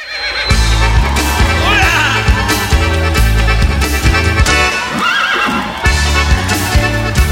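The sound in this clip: A dark dapple-grey horse neighs twice, shrill and wavering, over loud rhythmic music.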